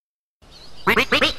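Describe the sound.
A voice imitating a duck gives four quick, loud, nasal quacks in a tight run, after a faint hiss at the start.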